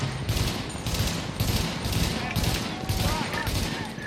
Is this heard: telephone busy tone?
no